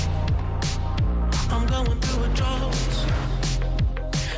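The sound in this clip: Upbeat pop music plays steadily in the background, with a pounding drum beat, deep pulsing bass and bright synth layers throughout.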